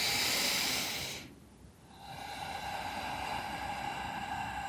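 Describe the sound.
A deep breath, a loud breathy rush lasting about a second, then a brief lull before a steady, quieter hiss continues to the end.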